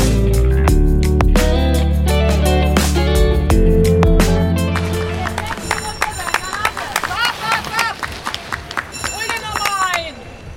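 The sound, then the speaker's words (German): Spectators cheer on elite men's runners at a race, after several seconds of loud music that fades; the crowd then takes over with clapping, rising shouts and whoops, and a busy hubbub of voices. “Tja, so wird hier angefeuert. Das war die Männerelite.”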